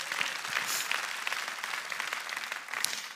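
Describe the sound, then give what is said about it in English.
Audience applause fills the scene, a dense, even patter of many hands clapping at steady loudness from start to finish. “You can give that a round of applause”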